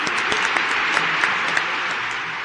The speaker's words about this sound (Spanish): Así que nuestro aplauso de Mundo Bullicio a la gente que hace TN.